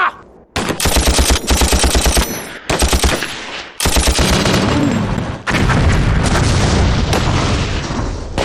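Machine-gun and rifle gunfire in a battle: loud, sustained rapid bursts mixed with heavy booms, broken by a few short gaps before the firing resumes.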